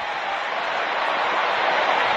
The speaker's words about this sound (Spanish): Para describirle la fanaticada haciendo la ola, Víctor, en el AT&T Stadium.